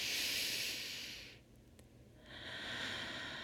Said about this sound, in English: I want you to put your hand on your heart and take a giant deep breath in with me.